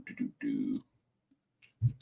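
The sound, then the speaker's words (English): Quick clicking, heard as a few short bursts close together, then a pause and a single low thump, with a voice present around them. “Quick clicking here.”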